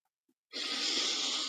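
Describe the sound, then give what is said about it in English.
A person takes one deep breath, a single long, airy rush of breath that holds steady for about a second after a brief quiet start. “It's a nice deep breath.”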